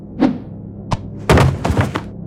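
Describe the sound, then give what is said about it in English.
A thrown potato hits someone with dull thuds: a few soft, low thumps, then a heavier cluster of impacts near the end. “Nice throw with that potato, Henry.”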